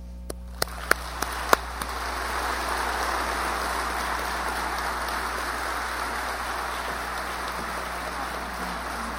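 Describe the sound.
An audience applauds to welcome a speaker: a few scattered claps at first, then a dense, steady wash of clapping that holds to the end.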